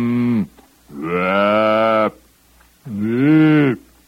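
Cows mooing, a herd of cattle walking around restlessly at night: three long, loud lowing calls separated by short pauses, with no other voices.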